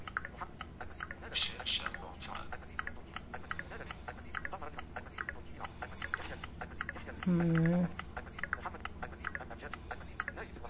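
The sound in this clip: Rapid, light tapping of typing on a phone keypad runs steadily as a quiet stream of small clicks, with a voice talking and a brief tone sounding over it.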